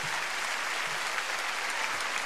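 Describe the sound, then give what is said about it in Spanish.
Audience applause for workers, a dense, even wash of many hands clapping that holds steady and fairly soft throughout, with no voices standing out. “Después aplauso grande para estos hermosos trabajadores de nuestra patria.”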